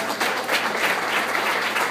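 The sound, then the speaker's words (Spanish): Applause from a church audience during a service: a steady, dense patter of many hands clapping for the whole two seconds, fairly loud and with no voices. “Vamos a dar un aplauso a la palabra de Dios.”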